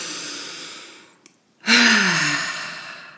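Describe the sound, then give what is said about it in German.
A person draws a long, deep breath in during a relaxation breathing demonstration, pauses briefly, then releases it in a loud, voiced sigh that slowly fades. “Ich mache das jetzt einfach mal vor, auch wenn sich das vielleicht hier ein bisschen komisch anhört. Ich atme mal so tief ein”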